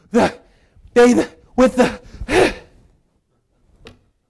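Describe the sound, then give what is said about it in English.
A voice imitates someone panting out of breath, with four heavy, voiced gasps in quick succession, then a short faint breath after a pause. “one guy show back up, panting out of breath, going,”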